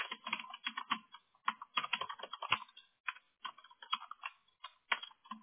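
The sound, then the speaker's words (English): Fingers type on a computer keyboard in quick, irregular bursts of light clicking keystrokes separated by brief pauses. The sound is soft and there is no talk. “I didn't type it right the second time.”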